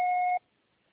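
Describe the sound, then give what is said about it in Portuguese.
A single steady electronic beep from an Oi telephone answering machine signals the start of message recording. The one short tone lasts under half a second, then cuts to silence. “Após o sinal. Grave seu recado.”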